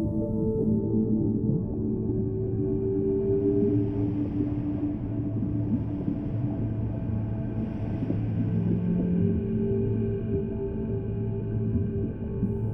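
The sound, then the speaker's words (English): Two blue-gray whales vocalize to each other in long, low, moaning calls, with sustained tones that shift slowly over a continuous deep rumble. “two blue-gray whales appear, talking to each other in their magical language.”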